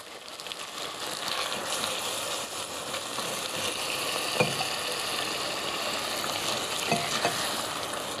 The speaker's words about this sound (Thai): ดูปริมาณเครื่องแกงกับดอกกำลังดีก็เทกะทิที่เหลือลงค่ะ